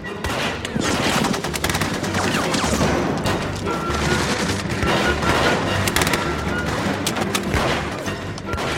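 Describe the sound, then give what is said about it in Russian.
Heavy gunfire erupts in a gunfight with bandits shooting from a ruined building: dense, continuous volleys of overlapping sharp shots that stay loud throughout, with no clear pauses. “И тут же из разрушенного здания бандиты открывают бешеный огонь. Начинается перестрелка.”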